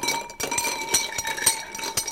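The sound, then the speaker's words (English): Ice clinking in a glass as a drink with a drop of Angostura bitters is stirred: many light, bright clinks in quick, uneven succession over a continuous rattling wash. “Well, would you mind terribly if I add a tiny bit of Angostura bitters? Is there alcohol in it? There's a small amount, but I'm adding a drop. Just a drop. It's so minuscule, you won't notice it. So we're going to give that a stir.”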